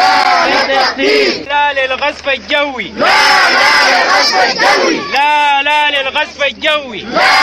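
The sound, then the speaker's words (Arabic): Loud crowd of displaced people chanting slogans against Bashir during a protest inside a Darfur camp. Many voices shout in rhythmic, strongly pitched bursts with short breaks between phrases, keeping the noise near its peak throughout. “وردد النازحين في اليوم الثاني للمظاهرات داخل معسكر كلمة هتافات ضد البشير والاستفتاء”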